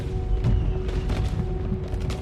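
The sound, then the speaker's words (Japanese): Fireworks bursting in a display of many colours and sizes: a dense, continuous wash of low booms and crackles at steady, fairly loud volume, with many bursts running together and no clear gaps. “赤、青、黄色、緑にオレンジ、紫、ピンク、大きさも色も違う花火がいっぱい。”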